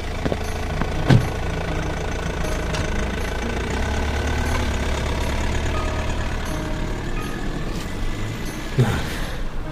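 An old car's engine rumbles steadily as it drives off, a continuous low drone with no voices. Two brief, sharper bumps stand out, one near the start and one near the end.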